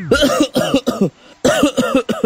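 Harsh, throaty coughing comes in two bursts of three loud coughs each, separated by a short pause, with no speech.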